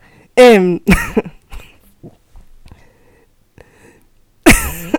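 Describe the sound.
Nervous coughing: a few sharp, loud bursts at the start, then quiet gaps with faint breathy sounds, and one more loud burst near the end.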